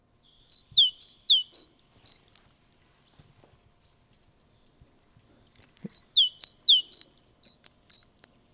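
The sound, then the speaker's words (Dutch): Great tit song, two rhythmic bouts of a high, clear two-note phrase repeated many times in quick even succession, separated by a pause with only faint low rustles. “Het mooie van die koolmees is dat het een ritmisch geluid is.”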